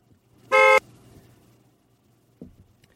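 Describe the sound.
A car horn gives one short, loud, steady honk, followed by quiet and a faint brief knock near the end.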